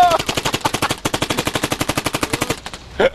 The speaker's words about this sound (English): So the Gatling gun will fire rapidly, but only in fits and starts.